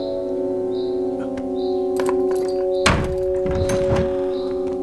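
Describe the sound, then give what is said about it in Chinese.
A door opens at a place where a prisoner is held: one heavy thunk near the middle, followed by some rattling, all over a steady humming tone. “把门打开吧。”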